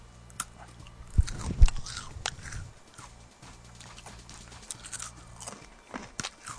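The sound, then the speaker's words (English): Someone eats a slightly stale, blueberry-flavoured triangular cracker: a couple of loud, crisp crunching bites, then quieter, irregular chewing and mouth noises, with no talking. “let me try one of the triangular crackers. That looks pretty good, actually. All right, I'm just going to eat one of them here”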